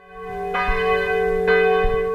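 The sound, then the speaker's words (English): Church bells tolling at an abbey in France's Champagne region: two loud, resonant strikes about a second apart, each ringing on with a rich, sustained hum. “Bells toll at this abbey in the French region of Champagne, where Dom Pérignon is buried.”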